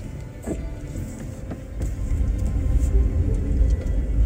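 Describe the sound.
A car engine runs with a low, steady rumble that grows noticeably louder partway through as the car is put into drive, with a few faint clicks above it.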